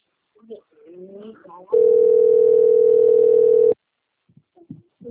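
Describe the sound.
A telephone ringing tone during a call: one loud, steady mid-pitched tone lasting about two seconds, with people talking before and after it.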